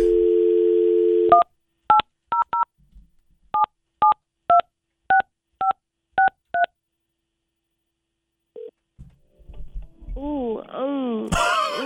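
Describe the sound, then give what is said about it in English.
A telephone number is dialed: a steady dial tone gives way to a quick run of clear keypad beeps with short gaps. After a silent pause a voice comes in with drawn-out, moaning sounds. “So let me, you want to dial it up?”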